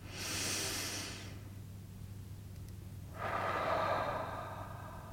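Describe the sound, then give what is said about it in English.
Deep breathing in and out: one long, airy inhale, a quiet pause, then a long, breathy exhale, with a steady low hum running beneath throughout. “let's take 3 breaths here together to solidify this bubble space we've just established.”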